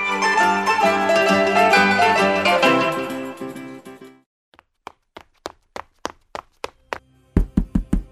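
Knocking on a door, heard after a stretch of music fades out. Many sharp raps follow in an uneven series, and the last few come quicker and clearly louder.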